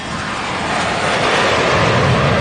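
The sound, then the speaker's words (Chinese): An airplane flies overhead with a loud, steady, unbroken roar that fills the whole clip. The engine noise holds an even level throughout, with no voices. “听到飞机声。”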